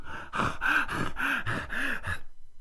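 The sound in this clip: A man pants heavily after a beating, with a rapid run of rhythmic gasping breaths, some carrying a voiced groan, and then the breathing stops abruptly.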